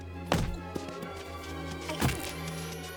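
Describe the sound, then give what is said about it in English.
Dull thumps of someone being butted and kicked along, two heavy hits well apart with a lighter knock between them, over a quiet, steady tonal background. “He butts and kicks her on her way.”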